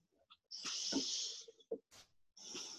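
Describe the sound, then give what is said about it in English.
A deep breath is drawn in through the nostrils during a guided breathing exercise: a soft, airy hiss lasting about a second, then faint short sounds and another quiet breath beginning at the end. “So taking a deep inhale,”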